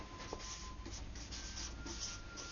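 Faint scratchy strokes of a word being written out by hand, several short rubbing scrapes in an uneven rhythm over a quiet background, with no talking.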